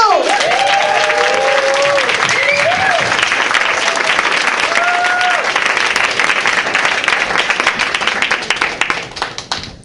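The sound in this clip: Audience applause and cheering greet a comedian taking the stage, with dense, steady clapping and a few whistles near the start. The clapping thins out and fades toward the end.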